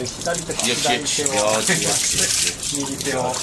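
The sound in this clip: Steady running water hisses and splashes continuously as someone washes their left hand, while voices talk over it.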